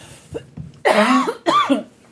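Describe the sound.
A person coughs from allergies while drinking a whiskey sour: two loud, harsh coughs, preceded by a few faint throat sounds.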